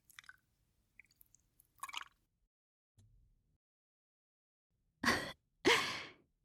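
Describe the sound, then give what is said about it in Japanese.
Breathing, in through the nose and out through the mouth: a few faint soft rustles and a short sniff come first, then two loud, airy breaths close together near the end, with no speech. “鼻から吸って、口から吐く。”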